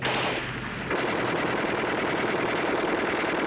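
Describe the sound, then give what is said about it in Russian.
A Maxim machine gun fires during a war-film battle scene with tanks and infantry. A brief quieter moment gives way to loud, continuous rapid fire with densely packed shots. “Плотный огонь пулемета «Максим».”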